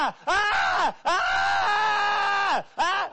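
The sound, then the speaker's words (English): A man's voice imitates a man screaming in the mountains at night. Three loud, drawn-out, wavering howls are separated by short gasps; the middle one is held longest, and the last is cut off. “he's screaming. And you know, way up in the mountains, it's echoing off the trees and rocks and everywhere.”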